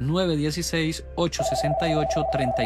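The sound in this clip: A telephone rings with an incoming call on a call-in consultation line, a steady electronic tone running beneath continuous talking.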